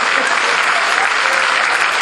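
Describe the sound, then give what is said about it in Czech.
An audience applauds at a live folk entertainment show, a dense, steady patter of many hands that holds at an even, loud level for the whole stretch, with no voices over it. “No zatleskajte si, klidně hodněte, já to nechci zdržovat.”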